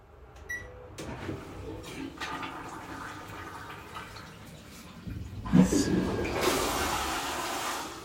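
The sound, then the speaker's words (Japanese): A toilet flushes. Quieter rustling and handling noises come first, then a loud rush of water swells and keeps going to the end. “流していきます。”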